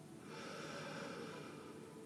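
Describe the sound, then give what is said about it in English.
A slow, deep inhalation during a guided meditation: a soft, steady airy hiss that holds for about two seconds, faint and alone. “And take a nice deep breath in.”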